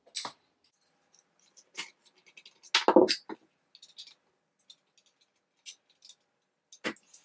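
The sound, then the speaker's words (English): Rifle action screws are finger-tightened with the barreled action seated back in its stock and the bottom metal fitted, producing sparse faint metallic clicks, ticks and a short rattle amid long near-silent gaps. “I'm going to remove the magazine from the bottom metal, put the bottom metal where it goes, and I'm going to go ahead and finger tight my action screws.”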